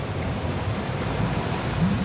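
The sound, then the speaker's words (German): Roaring sea: a steady, low, rumbling surge of waves and wind-like noise that runs without a break and swells slightly near the end. “Das Meer beginnt zu brüllen.”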